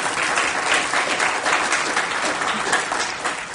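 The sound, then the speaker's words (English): Audience applause for the speaker's mother at a church gathering: a full, even roar of many clapping hands, steady and loud across the whole stretch. “And also, my mom's here. Give her a hand.”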